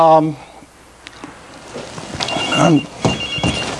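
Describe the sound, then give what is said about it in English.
A mobile phone rings briefly at the start during a lecture on heart imaging, with a short, bright electronic tone. A person then speaks over quieter background sounds. “I'll turn that off. It's a good cue to all of us to turn our phones off, I guess.”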